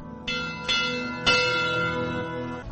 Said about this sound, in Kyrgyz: ушу кыргыз тоолорунан, чокуларынан түшө албай калгандардын урматына коңгуроо кагып коюлушат